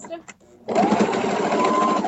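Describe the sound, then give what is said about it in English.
A sewing machine starts up after a short pause and runs steadily, giving a continuous whirring, buzzing hum that holds its pitch to the end. “It's a lot easier with a sewing machine,”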